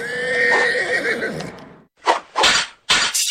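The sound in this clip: A horse whinnies loudly in a long, wavering neigh, followed by a few short, sharp, noisy bursts.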